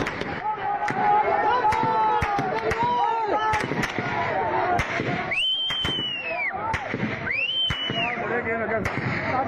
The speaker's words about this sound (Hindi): आप गोलियों की आवाज भी सुन सकते हैं और लोगों का चिल्लाना भी सुन सकते हैं।